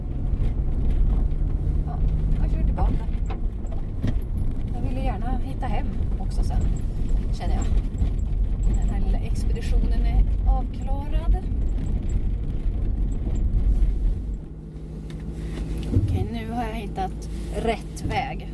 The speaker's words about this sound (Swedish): Jag gör det. Jag kör tillbaka. Så är det himla tur att jag har bytt till vinterdäck idag.